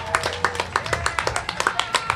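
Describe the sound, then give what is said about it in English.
Audience clapping at the Bonnaroo festival for a volunteer trash-and-recycling crew: many sharp, evenly spaced claps in a steady rhythmic beat, moderately quiet, with a faint tonal hum underneath. “So a big round of applause for her.”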